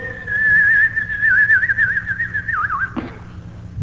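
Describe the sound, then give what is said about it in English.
A man whistles to imitate a wartime projectile falling toward earth, holding a long wavering high tone that dips and slides downward near the end, followed by a short low thud. “And what it did was it whistled as it came up and down toward the earth. Now, it didn't make it any worse. It just sounded worse. And it'd come down, you know, and it'd go.”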